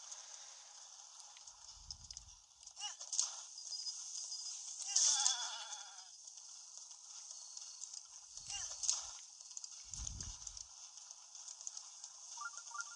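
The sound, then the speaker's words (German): A fast horse gallops in a video game, its hooves making a steady, rapid clip-clop clatter that runs throughout, with a few louder thumps mixed in. “Weil Epona kann halt so schon schnell laufen. Es hat Tempo 4, Stärke 4 und Ausdauer 4.”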